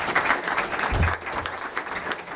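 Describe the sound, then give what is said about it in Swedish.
An audience applauds a panelist at a Swedish debate. The clapping is steady and moderately loud throughout, fading a little toward the end. “Men en applåd för Martin också.”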